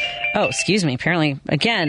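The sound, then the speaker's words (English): A mobile phone ringtone plays as a bright, melodic electronic chime that rings steadily for about two seconds with sliding, voice-like notes. “I turned my phone off earlier. Why won't this stop ringing?”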